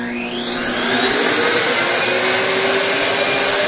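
A vacuum machine with a hose fires up and becomes a loud, steady roar of rushing air. It swells over the first second with a rising whine, then holds even and continuous, with no voices.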